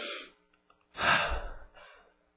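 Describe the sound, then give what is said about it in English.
A deep breath drawn in through the nose: one quiet, rushing nasal inhale, then a softer trailing breath that fades away. “Take a deep breath into your nose.”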